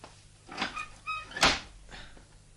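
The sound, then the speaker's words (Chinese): A door being opened produces a few faint latch clicks and light knocks, with one sharper, louder click near the middle, against quiet low hum. “我开门啦”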